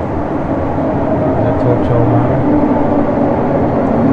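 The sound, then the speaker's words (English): A train arriving at a station platform in Japan, a steady low rumble of the rolling train that holds level throughout, with a voice heard over it. “It said the train for Kurohai is arriving at platform 1, and please stand behind the white line.”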